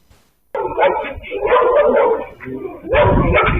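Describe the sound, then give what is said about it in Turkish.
Stray dogs barking in a city street: loud, overlapping barks and yips from several dogs that run almost continuously, with a short dip before a final burst. “İstanbul Sarıyer'de sürü halinde dolaşan başıboş köpekler tehlike saçıyor.”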